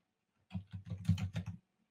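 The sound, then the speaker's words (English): Typing on a computer keyboard, a short quick burst of several soft keystrokes lasting about a second, with no talk. “One is if I type here”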